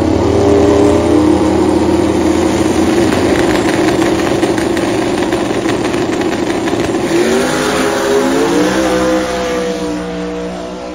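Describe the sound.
A Street Fighter class drag race car with a 6R80 transmission roars loudly and continuously as it accelerates. The engine tone climbs in pitch late in the run before easing slightly at the end.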